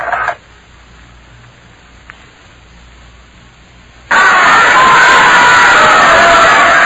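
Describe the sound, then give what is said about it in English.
A huge crowd on the jam-packed docks of Plymouth roars and cheers, bursting in suddenly loud after a quiet stretch and holding a dense, unbroken wall of noise to the end. “I'm standing in the midst of one of the biggest crowds I've ever seen.”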